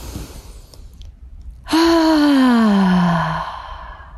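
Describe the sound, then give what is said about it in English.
A deep breath taken during a guided breathing exercise: a faint intake, then a long, loud voiced exhale that sighs downward in pitch before fading. “We're going to take a couple more deep breaths. One, two, three. Take a deep breath.”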